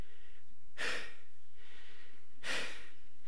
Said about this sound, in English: Breathing a little bit harder. Right? A little bit adrenaline in the system.